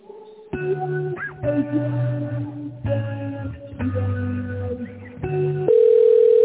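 A telephone ringing tone while a call connects, heard after a stretch of electronic melody: the ringing starts near the end as a steady, unbroken mid-pitched tone.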